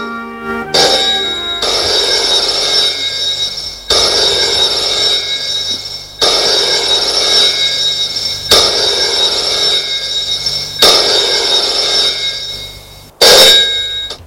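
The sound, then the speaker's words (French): A telephone rings at home, its loud metallic bell sounding six times in a steady rhythm. Each ring lasts about two seconds, and no voices are heard. “sa cousine lui téléphone. Allô?”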